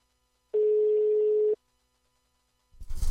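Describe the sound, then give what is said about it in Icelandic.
A telephone rings with a single steady tone about a second long, loud and alone, followed by silence and then a brief burst of noise. “Það hringir.”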